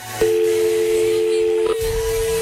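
Steady telephone line tone from an outgoing call dialed from a listener call desk: one continuous mid-pitched tone holds for about a second and a half, then carries on more faintly.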